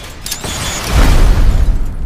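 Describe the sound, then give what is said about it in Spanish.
A hand grenade explodes in a deep, rumbling boom that rolls on for about a second, preceded by a brief, sharper burst of sound. “¿Qué hace eso? ¿Electrocuta? No sea ridículo. Es una granada de mano.”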